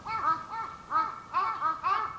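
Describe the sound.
Crows cawing in a series of harsh, nasal calls, repeated in short bursts separated by brief pauses, fairly loud and heard alone.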